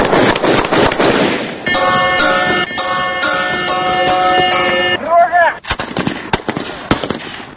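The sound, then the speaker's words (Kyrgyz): Gunfire during a training exercise at a border outpost guarding a village near the Tajik border: many sharp, loud shots in rapid bursts, broken by a sustained droning, horn-like tone in the middle, with voices briefly heard. “Бул ок атышуулар Тажикстан менен чектешкен аймактагы Зардалы айылын корогон чек ара заставасындагы окуу учуру.”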